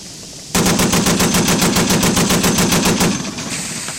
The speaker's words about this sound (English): Forward gun ready. There, fire at will